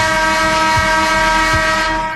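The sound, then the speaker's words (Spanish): A horn sound effect blares as a loud, sustained chord-like blast, like a train horn. It holds at a steady pitch for the whole stretch and tapers slightly at the end. “¿Te puedo tocar la bocina?”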